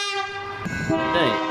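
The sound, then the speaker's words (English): Train horn sounding one sustained, loud blast of rich, layered tones that shifts slightly in pitch partway through, over a low rumble. “like with a tram or like a train, you sort of expect the horn to sound like this.”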